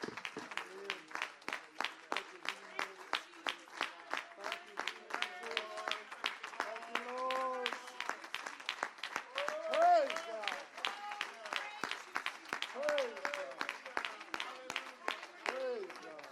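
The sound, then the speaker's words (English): A church audience claps hands in praise during a Sunday service, keeping a steady rhythmic beat of many claps throughout, with voices speaking and calling out over it. “Praise the Lord, everyone. Give Jesus a big hand clap of praise this morning.”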